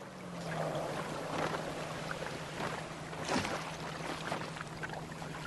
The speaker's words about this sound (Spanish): Navegación por el canal de Beagle.